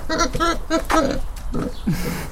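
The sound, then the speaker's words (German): Large pigs grunt and oink in an open stable, giving a quick series of deep, throaty grunts with some higher squeaky snorts near the end. “Der riesige Tim liegt auf der Seite, dicht an der Offenstallwand. Nicht weit von ihm ein weiteres großes Schwein.”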